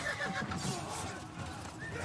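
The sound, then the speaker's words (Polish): Horses whinny as they rear during a sudden attack on a mounted king's party. A short, quiet neigh sounds over a noisy background. “Konie stają dęba.”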